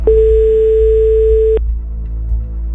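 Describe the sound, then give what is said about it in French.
A phone line rings after a number is dialed: one steady, mid-pitched ringback tone lasts about one and a half seconds and then cuts off, leaving a low hum. “On compose le numéro qui est sorti. Voilà. Ça sonne.”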